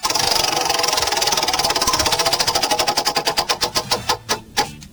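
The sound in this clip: Prize wheel spun hard: a rapid stream of ratcheting clicks that steadily slows and spaces out until the last few separate ticks as the wheel comes to rest.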